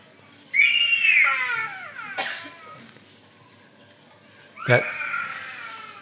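A small child cries in a room, letting out two high, wavering wails separated by a quieter pause, with faint babbling in between.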